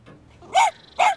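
A dog barks twice, two short, sharp barks a fraction of a second apart over a quiet background.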